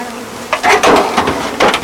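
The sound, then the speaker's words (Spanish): Honeybees buzz around a freshly opened hive, a rough, hissing hum that comes in a few uneven swells and fades rather than one steady drone. “Vamos a abrir otra y vamos a coger las abejas.”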